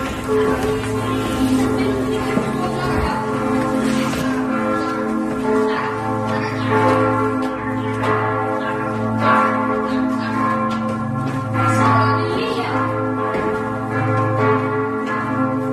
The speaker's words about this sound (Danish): Vi kan høre kirkeklokker, men vi er på vej op til tårnet.